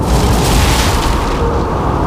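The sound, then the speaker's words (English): Explosion of a dropped bomb, a loud, sustained roar of dense rumbling noise that continues without a break from start to end. “Or they dropped the bomb!”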